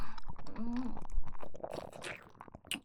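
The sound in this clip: Chewing and eating a mushroom with white spores still inside, heard as several moist, crunchy bites and mouth noises, fairly close and uneven in rhythm, with no speech.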